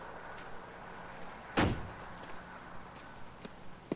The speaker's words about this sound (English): he opens the front door.